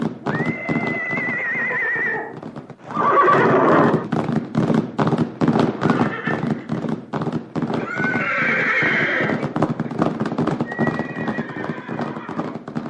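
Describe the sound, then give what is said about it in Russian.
A herd of wild horses galloping, with dense, rhythmic hoofbeats drumming steadily throughout. Several loud, shrill neighs ring out over the pounding hooves. “Неподалеку появился дикий табун лошадей, и Луна, укрощенная Луна, перестала подчиняться наезднице.”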